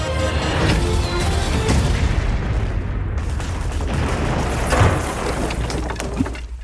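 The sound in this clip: The explosion of a battleship being sunk: a loud, roaring blast that holds a dense, rumbling wash of noise for the whole clip, with no talk.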